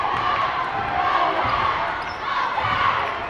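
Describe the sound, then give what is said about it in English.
Basketball dribbling on a court during a women's game, repeated dull bounces under a steady, loud crowd murmur throughout. “Eagles with the ball. They're looking to extend their seven-point lead. Dribbled around at the volleyball line.”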